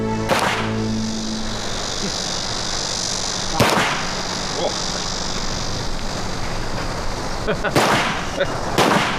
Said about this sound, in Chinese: 这子弹都放出去了，这就是胜利啊！